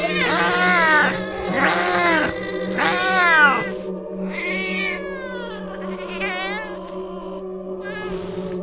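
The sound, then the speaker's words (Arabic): Cats meowing in a spooky setting, one of them a black cat with a strange voice: three loud, drawn-out meows, then several shorter, fainter ones, all over a steady low hum. “وسمعت صوت قطة تانية لكني مش شايفاها.”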